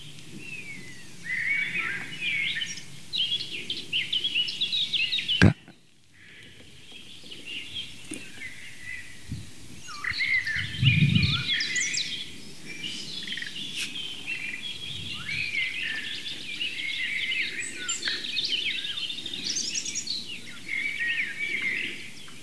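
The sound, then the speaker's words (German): A blackcap sings its bright, fast, fluting song, similar to a blackbird's, in repeated quick phrases. The song is faint over a low background rumble, and a single sharp knock cuts in once partway through. “Das helle, amselartige Flöten, schnell vorgetragen von der Mönchsmücke.”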